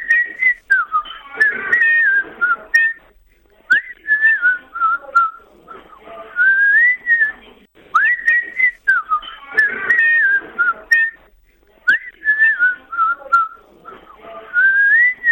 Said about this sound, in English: blowing a tune from his old gay lips. Can you identify that tune?